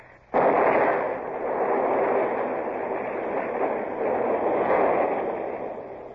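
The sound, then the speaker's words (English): A shore battery's gunpowder magazine blows up at Lanza: a sudden loud blast, then a heavy, sustained roar that surges slightly and eases toward the end. “Blown the magazine, sir. That's the end of the battery at Lanza.”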